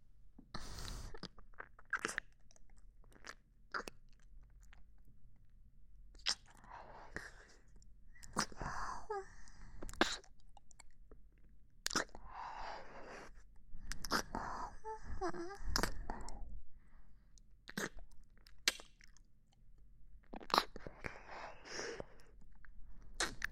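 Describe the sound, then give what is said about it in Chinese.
A small female dog chews food, with many irregular wet, crunchy bites and smacks in short bursts, moderately loud against quiet gaps. “有些擅自主张，但小母狗忍不住要品尝一下了。”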